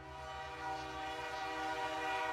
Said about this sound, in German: Von Moskau nach Wladiwostok. Eine Reise mit der transsibirischen Eisenbahn.